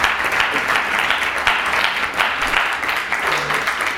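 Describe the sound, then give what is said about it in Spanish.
Dense, steady applause from an audience honouring the winners of an economics research award, a continuous wash of many clapping hands lasting about four seconds with no talk over it. “un aplauso para ellos que les acaban de otorgar este premio”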